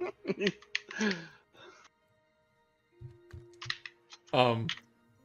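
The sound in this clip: Keys click on a computer keyboard as a timestamp is typed out. A few quick taps are scattered between short bursts of voices and laughter.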